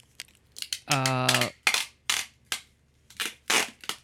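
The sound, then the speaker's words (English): A roll of packing tape falling on the floor, producing many sharp, irregular clattering knocks as it bounces and rolls. One longer impact rings with a brief tonal resonance. “That's got to be packing tape or something. I know you know that sound. Oh. There's another sound. I know. Packing tape falling on the floor too well.”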